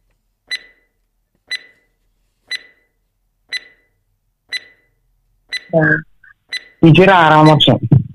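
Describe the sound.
Quiz countdown timer beeps: short, bright tones ticking once a second, seven in all, with a voice cutting in over the final beeps.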